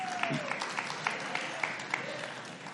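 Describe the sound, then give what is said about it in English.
Sparse applause rises from a church audience during a sermon, with only a few people clapping. Scattered individual claps come at an uneven pace for a few seconds. “only 12 of you clapped at that.”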